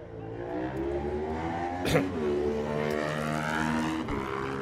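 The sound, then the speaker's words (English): Super Twin racing motorcycles idle and rev their engines at a road race, producing a fairly faint, steady, throbbing harmonic drone broken by a short sharp blip near the middle. “Such distinctive sounds out of these Super Twin machines.”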